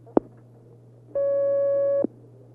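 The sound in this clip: A telephone line tone sounds as a caller's call connects: one steady buzzing tone with a few overtones, lasting just under a second. Soft clicks come just before and right at its end, over a low continuous line hum.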